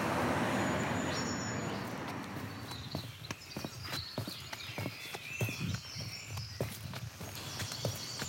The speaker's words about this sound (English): As you can probably hear, it's quite busy here at the start with the road noise.